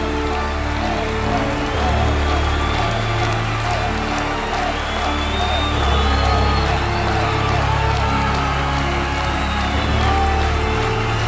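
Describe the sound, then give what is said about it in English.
A live crowd at the 2017 Horror Hall of Fame event cheers and whoops, a loud, sustained wash of shouting and clapping that holds steady for over ten seconds. “A live audience! This is going to be really scary!”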